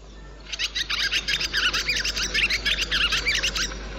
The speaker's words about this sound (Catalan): però, escolteu, aquest és el so de l'oreneta comuna.